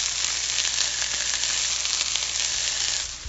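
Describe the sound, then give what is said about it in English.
Food sizzles loudly in a hot pan as it is tossed. A dense, continuous hiss holds steady throughout and eases slightly at the end, with no talk. “Now add, that's the pan being tossed. Add something cold to the pan and the pitch drops.”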